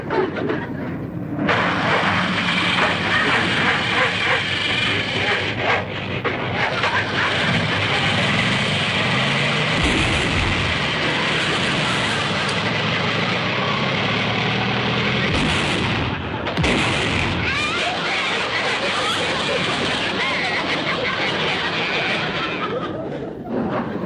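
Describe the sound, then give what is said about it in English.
A car engine cranks and runs with loud, rough sputtering and banging bursts, a harsh continuous roar broken by a couple of short dips partway through. “All right, wise guy. Come on, Rochester, start the car.”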